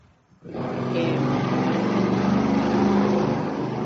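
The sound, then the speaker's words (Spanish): Loud engine roar of a motorcycle or vehicle exhaust passing outside. It swells in after about half a second and holds as a steady, broad rumbling drone to the end. “no sé si es una moto o el mofle de un vehículo, pero eso fue un sonido así, una sugestión externa.”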